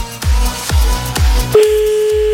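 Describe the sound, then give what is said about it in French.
A telephone tone for an outgoing call: three deep, thumping hits, then a steady, continuous mid-pitched tone that runs to the end. “allez, c'est parti, on y va, on appelle maintenant à 23h34.”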